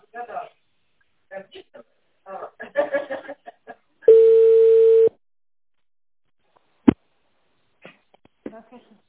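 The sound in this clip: A telephone ringing tone sounds once during a call transfer as a single steady, mid-pitched beep about a second long. Talk comes before it, and after it come a sharp click and more speech.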